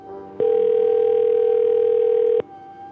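A telephone ring tone heard by the caller during a repeated call: one steady, mid-pitched tone lasting about two seconds, with quiet background sound before and after it.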